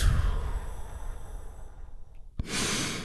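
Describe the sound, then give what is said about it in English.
A big, deep relaxation breath: a long, airy breath that gradually fades, a brief near-silent pause, then another broad rush of breath. “Join me in taking a big, deep, healing breath right now. Here we go. And relax.”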